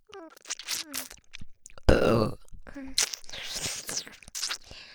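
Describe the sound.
A wet, rough burp right by the ear: one loud, noisy belch midway through, with smacking, licking mouth sounds and brief soft vocal bits before and after.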